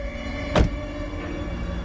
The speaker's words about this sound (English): A train pulls in. Get on the train.